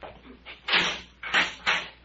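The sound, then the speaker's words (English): A prison cell door is opened: a few harsh, noisy bursts of scraping and clanking, each brief and loud, with quieter gaps between them. “Get the cell door”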